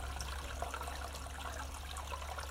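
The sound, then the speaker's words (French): Spring water from the source of Brignoles trickles gently beneath a village washing place. The flow is soft, steady and continuous, faint and without talk. “C'est là-dessous, gentiment, elle coule et c'était de l'eau claire potable dans le temps.”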